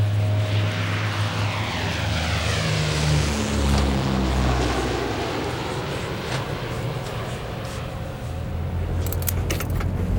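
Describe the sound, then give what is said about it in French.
A Fairchild aircraft takes off from a stop in Argentine territory, ahead of an Andes crossing. A loud, continuous engine roar with a low droning tone holds steady for the whole stretch. “Après quelques atermoiements, à 14h18, le Fairchild a donc redécollé.”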